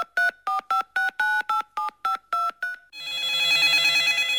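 A phone call being dialed from a hospital to reach a town surgeon: a quick run of short, even keypad beeps, then a steady, buzzy ringing tone on its own.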